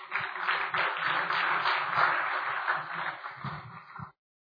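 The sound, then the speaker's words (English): A church audience applauds to welcome a pastor to the pulpit. The clapping is a steady, even patter that holds for about four seconds and then stops abruptly. “Now let us put our hands together to welcome Pastor Bailey to minister the word of God.”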